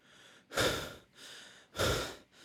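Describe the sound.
Deep, breathy inhales and exhales during a counted breathing exercise. Two strong, forceful breaths alternate with softer, quieter ones in a slow rhythm, with no talking.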